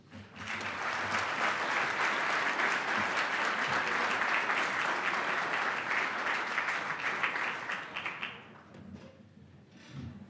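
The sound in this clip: Audience applause welcoming a senior fellow to speak at a Cato Institute event: sustained, dense clapping that holds steady for about eight seconds, then thins and fades to near quiet.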